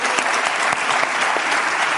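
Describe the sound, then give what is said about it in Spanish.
Audience applause breaks out as a young woman is invited on stage to compete at a live show: a dense, steady wash of clapping at full strength, continuous throughout with no gaps. “Un aplauso para ella.”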